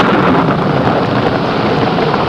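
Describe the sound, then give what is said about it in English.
A late-afternoon thunderstorm breaks with a steady, loud, broad wash of rain and wind noise that holds an even level throughout, with no distinct thunderclap and no voices. “Just as he and Tonto headed into town, a late afternoon storm broke.”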